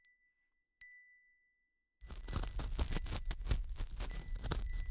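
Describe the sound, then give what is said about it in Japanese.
A Japanese wind chime (fūrin) rings in the breeze with two faint, high, clear dings, followed by a dense, loud, rough noise that fills the rest. “いい風入ってきてますね。どうです、風鈴の音よく聞こえるようになって涼しくなりませんか？”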